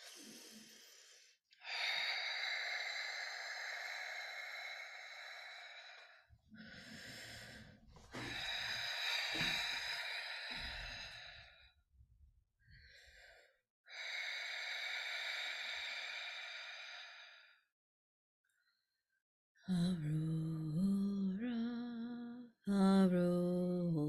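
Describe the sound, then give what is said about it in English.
Slow, deep breaths, a few long, loud, airy inhalations and exhalations separated by pauses, followed at the end by a voice singing. “Just going to take a couple deep breaths, and we're going to get started with today's transmission.”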